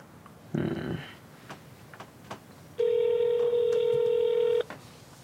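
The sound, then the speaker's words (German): A telephone number is dialed to a university admissions office, with a short buzzy electronic burst followed by a long, steady, loud phone tone holding for about two seconds before cutting off. “wählt er die Nummer vom Zulassungsbüro der Uni.”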